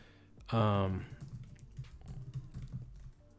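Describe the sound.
Computer keyboard keys clatter rapidly as a job title is typed into a job search. A brief voiced sound comes just before the steady run of keystrokes.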